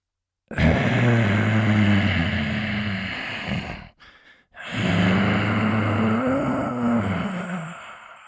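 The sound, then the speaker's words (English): A person exhales forcefully through the mouth with clenched fists during a breathing exercise, pushing air from the lungs: two long, loud, voiced breaths out, each lasting a few seconds, separated by a short pause. “we're going to clench our fists and use the squeezing of the fists to push out even more air from the lungs. Breathe out through the mouth.”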